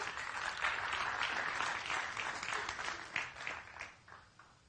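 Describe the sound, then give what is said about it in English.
An audience applauds as a woman is welcomed onto the stage during a church service. The clapping starts full and even, then thins to scattered separate claps and fades out. “If you guys give her a hand?”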